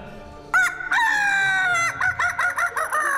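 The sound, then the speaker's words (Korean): A rooster crows loudly among apartment blocks: one brief opening call, then a long sustained crow, followed by a run of short, rapidly repeated calls. “닭 소리가 들립니다.”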